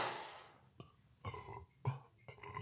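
A person burps in a few low, throaty, voiced bursts spread over a couple of seconds, each rough and resonant, with no speech.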